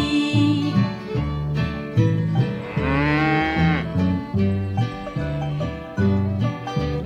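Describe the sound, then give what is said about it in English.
A cow moos in a long, drawn-out call in the middle of a bouncy children's song, its voice bending above the steady, repeating music. “Fee deedle dee deedle dee dee dee, the cow is talking to me.”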